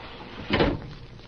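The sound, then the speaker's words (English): A window being closed: a single muffled sliding thud, short and moderately loud, over a low steady hiss. “The window's open. Do you mind if I close it?”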